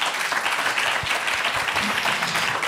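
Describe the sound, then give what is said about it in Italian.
Audience applause welcoming a writer at a book presentation: dense, steady clapping from many hands at an even level for the whole short stretch, with no break or fade. “l'applauso è tutto per uno scrittore”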